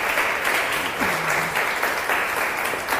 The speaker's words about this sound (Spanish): Un aplauso, por favor. Gracias, gracias.